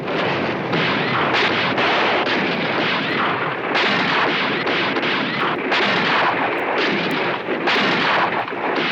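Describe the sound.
Heavy gunfire and explosions from a battle around a church and courtyard, with fighters using coal-oil bombs and dynamite: dense, loud, overlapping bursts and blasts run continuously without pause.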